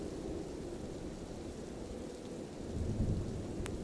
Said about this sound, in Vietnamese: Vài hạt mưa trong không trung bắt đầu thả mình rơi xuống.